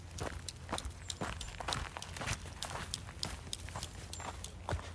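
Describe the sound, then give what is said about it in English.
Footsteps on an afternoon walk, many even, regularly spaced steps keeping a steady pace at moderate loudness throughout. “I'm walking on an afternoon today. My morning walk is this afternoon.”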